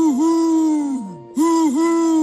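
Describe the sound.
A voice imitates a cartoon owl's hoot with sustained, wavering tones. A long note slides down and fades, then after a brief silence the hooting resumes at the same steady pitch.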